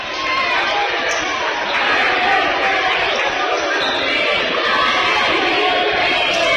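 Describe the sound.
A basketball is dribbled on a court during a game, its rapid, repeated thuds running steadily under loud, continuous crowd noise throughout.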